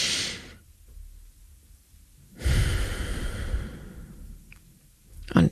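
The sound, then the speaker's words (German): Slow breathing in and out: a soft breath fades into a long quiet gap. A louder, drawn-out breath lasting about two seconds follows and tapers off, then a short, sharp breath closes the sequence. “ich atme einfach 5 Sekunden ein und 3 Sekunden aus.”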